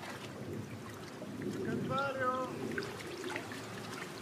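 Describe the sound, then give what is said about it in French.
Water flowing in a forest stream gives a steady, soft rushing wash that swells slightly in the middle, with a brief voice heard over it partway through. “Il s'est mis dans le cours d'eau.”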